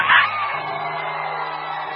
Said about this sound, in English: I want to make some noise. I want to shout. I want to rejoice. I want to celebrate.